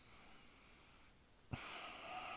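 Heavy breathing from a person, soft and airy at first, then a sudden sharp, louder intake of breath partway through that carries on as a stronger rush of air.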